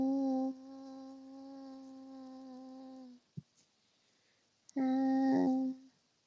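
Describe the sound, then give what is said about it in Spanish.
A housefly buzzes with a steady, nasal drone that lasts about three seconds. After a brief gap with a couple of faint clicks, a second, shorter and louder burst of buzzing follows. “Oh, oh, una mosca.”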